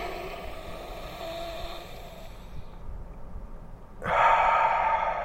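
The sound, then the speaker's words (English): A deep breath drawn in and held by someone at a car's steering wheel, a long soft airy rush that quiets before a loud, full exhale bursts out near the end. “Second breath. Nice and deep. Hold it a little bit.”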